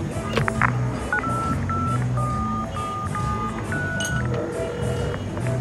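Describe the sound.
A telephone being dialed in a bar: a string of short electronic touch-tone beeps, some steady and some clipped, sounds over constant background noise with no clear speech.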